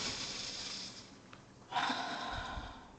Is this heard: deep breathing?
yes